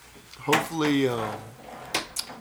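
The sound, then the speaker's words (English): A door being shut gives a few short knocks and thuds, with a voice heard between them. “Let me close this door before you hear my wife scream.”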